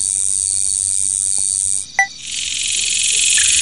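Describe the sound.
Insects in a video game swarm toward a freshly lit lantern by a big tree, a steady high-pitched buzzing drone that dips briefly midway, then returns fuller and denser, with a couple of short tonal blips.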